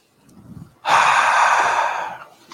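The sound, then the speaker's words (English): A deep breath is drawn in as one long, loud, airy inhale lasting over a second, preceded by faint quiet sounds and tapering off at the end. “Take a breath.”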